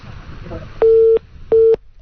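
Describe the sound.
A telephone busy tone sounds after a call is hung up: two loud, steady mid-pitched beeps separated by a short gap, preceded by faint voice sounds.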